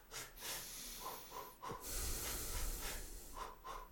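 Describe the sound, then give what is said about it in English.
Rhythmic staccato breathing demonstrated by a person: many short, sharp, hissing breaths and snort-like puffs in a steady, choppy pattern, fairly faint and with no talking. “Because you can breathe rhythmically, but staccato. So if you go,”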